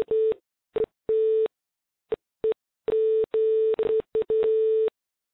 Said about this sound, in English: You're gone. You got disconnected.